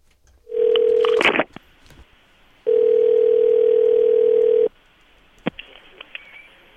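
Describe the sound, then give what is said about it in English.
Ringback tone on a phone call to a county solid waste transfer station: two steady electronic ringing tones, the second much longer than the first, separated by a gap with a brief click, with no voices. “I want to call the Green County Solid Waste.”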